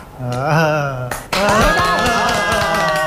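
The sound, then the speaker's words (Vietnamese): A class claps hands at the teacher's request: after a stretch of voices, a run of rhythmic claps starts up and continues beneath ongoing talking and chanting voices. “Vỗ tay. Vỗ tay. Có khi nào thầy kêu tụi mình vỗ tới ngày mai luôn không? Vỗ tay. Nếu điều đó không xảy ra thì vỗ mạnh lên đi.”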